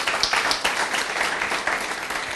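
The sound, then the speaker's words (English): A church audience applauds with dense, lively clapping that stays fairly loud and even throughout, with no talking over it. “Let's give the Lord a big hand, please.”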